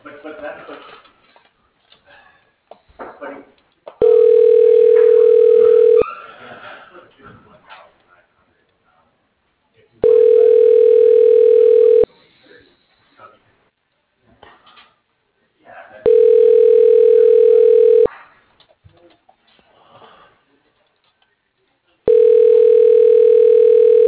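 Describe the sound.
A telephone ringback tone plays while a call is transferred: four long, steady tone bursts of about two seconds each, with quieter stretches of talk between them.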